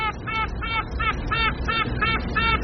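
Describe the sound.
Queen honeybee piping, the song carried through the walls of the comb: a rapid, even series of short, buzzy tooting pulses with a bright, reedy tone over a steady low hum.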